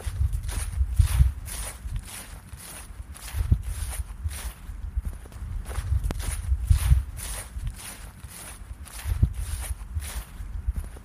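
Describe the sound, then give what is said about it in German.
Footsteps crunch steadily along a path during a walk through a city park in December, a regular, even stride of many soft, low thuds that keeps going throughout with no talking. “Heute nehmen wir euch mit auf einen kleinen Spaziergang in den Fahrenwalder Park.”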